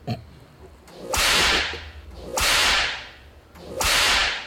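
Three whip lashes come at an even rhythm. Each is a loud, hissing swish that swells and fades over about a second, over a low rumble.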